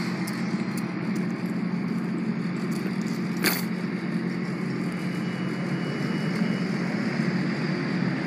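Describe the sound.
A passing Clark Freightways freight truck produces a steady, loud engine rumble and road drone that stays even throughout, broken only by a single brief click near the middle.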